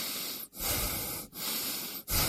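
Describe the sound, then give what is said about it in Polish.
Heavy human breathing, drawn in and out on instruction in a commercial about smog: several long, loud, hissing breaths, each lasting most of a second, separated by brief silent gaps, with no talk. “Proszę oddychać.”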